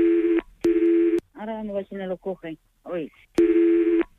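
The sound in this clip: Telephone ringback tones as a call is transferred: three steady buzzing beeps, two at the start and one near the end, with a voice speaking in the gap between them.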